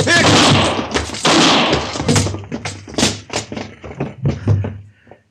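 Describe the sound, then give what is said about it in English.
A gunshot in an old-time radio Western drama: loud, sharp blasts open the scene, followed by a run of shorter thuds and knocks that fade out. “Don't shoot again, Chester.”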